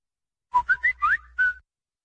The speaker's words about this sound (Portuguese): E o WhatsApp tá chamando, tem mais gente aguardando pra falar comigo, é isso?